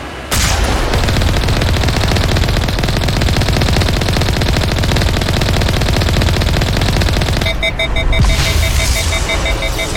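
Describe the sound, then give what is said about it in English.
Rapid weapon fire aimed at a Colossus in a video game: a loud, dense, unbroken stream of shots runs through nearly the whole clip, and a pulsing electronic beep joins in near the end. “Alright, so we have to shoot at a Colossus until our weapon basically overloads to get it.”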